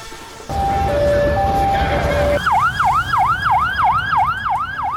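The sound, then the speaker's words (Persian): An ambulance siren sounds as people gather after the killing of a Hamas leader. Steady tones that shift pitch give way to a loud, fast, repeating yelp that sweeps up and down, over a low rumble of traffic. “این صدای امبولانس و تجمع مردم به خاطر کشته شدن یکی از رهبران حماس”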